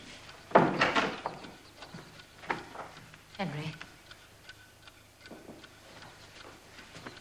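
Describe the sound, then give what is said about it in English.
A clock being wound gives faint ticks and clicks from its mechanism, with a few sharper knocks and scraping sounds scattered irregularly against a quiet background. “Margaret finds Henry winding a clock.”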